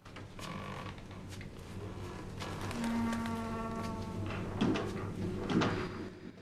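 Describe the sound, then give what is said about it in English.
An upper attic door swinging open, with a drawn-out wooden creak in the middle and a couple of soft knocks as it moves, all fairly quiet against a faint background hum. “The upper attic door swings but remains open.”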